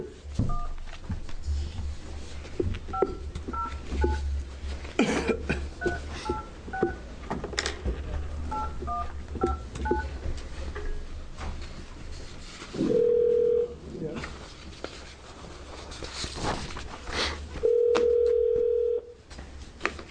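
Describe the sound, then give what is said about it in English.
A telephone is dialed during a House Healthcare Committee hearing: a quick run of touch-tone keypad beeps, then two longer ringing tones as the call goes through, all over a low hum and faint background noise. “I'm getting Lorena Hawkins on the phone.”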